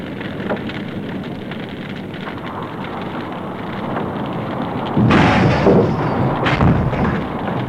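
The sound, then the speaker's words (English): Stairs collapse inside a burning house: a steady crackling roar of fire gives way to a sudden, loud crashing burst, followed shortly by a second, shorter crash, with no voices. “That was the stairs. What was it? It was the stairs. They've collapsed.”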